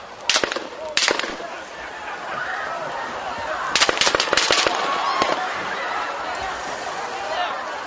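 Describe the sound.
Gunshots play from a video: two sharp isolated cracks early on, then a rapid cluster of shots, and one more later, all over a steady rushing background.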